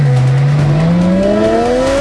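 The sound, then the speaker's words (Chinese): A car engine roaring at high revs, its loud, smooth tone climbing steadily in pitch as the engine accelerates, with no other sound over it. “一辆完美的车应该发出什么样动听的声音？急速马力的声浪轰鸣，”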